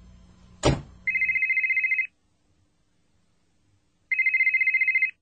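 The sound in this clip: A telephone rings in two trilling bursts, each about a second long with a rapid high warble, separated by a few seconds of silence. A short thud comes just before the first ring.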